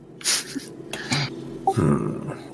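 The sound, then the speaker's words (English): A voice imitates a monster's roar during a tabletop fantasy role-playing game: a few rough, gravelly bursts of growling, loud and alone, with no spoken words. “I will roar again.”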